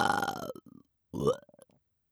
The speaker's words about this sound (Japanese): あ、ごめんなさい、みんなの前でゲップなんてはしたない真似しちゃって。